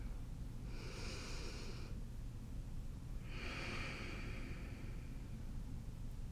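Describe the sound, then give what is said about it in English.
Group breathing during a guided pause: two long, airy breaths, soft and slow, each about a second or more, separated by a short gap, over a low steady hum. “Let's just breathe together for a minute.”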